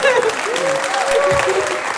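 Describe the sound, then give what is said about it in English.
Audience applause fills a live stage event at a baseball discussion, a dense steady wash of clapping that runs the whole stretch at full volume, with a thin whistle-like tone rising above it midway. “so we should all clap for that”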